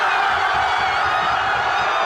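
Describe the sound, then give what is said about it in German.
A crowd in Madrid cheering after the final whistle of the World Cup final: a loud, continuous roar of many voices, steady throughout with no pauses. “Dort ist natürlich nach dem Schlusspfiff der große Jubel ausgebrochen.”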